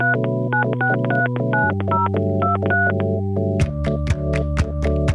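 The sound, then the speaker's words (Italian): A mobile phone number dialed on the keypad: a quick series of clear, steady keypad beeps, followed by a run of short, sharp clicks. “Quindi ho preso il cellulare e ho fatto il suo numero.”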